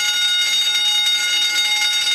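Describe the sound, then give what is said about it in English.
Continuous bell-like alarm ringing outdoors in a downtown courtyard, a steady, high, rapidly pulsing ring that never pauses and holds an even, fairly loud level throughout. “Sounds just like a fire alarm or like a school bell or whatever. Never ending.”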